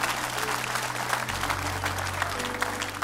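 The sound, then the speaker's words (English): An audience claps at a church service, a dense, steady wash of many hands that keeps going throughout. A low sustained tone sits underneath the clapping. “Somebody give the Lord a clap offering.”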